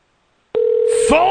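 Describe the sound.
A steady mid-pitched telephone ring tone starts suddenly on a call line and holds. A brighter, wavering sound joins it near the end.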